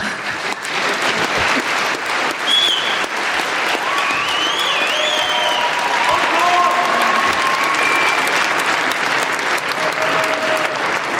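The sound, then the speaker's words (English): Audience applause and a standing ovation after a speech in a debate on a motion: sustained, dense clapping that holds steady throughout, with scattered voices rising over it. “I think Anne Applebaum certainly got the most applause there and a standing ovation from your fellow speaker there.”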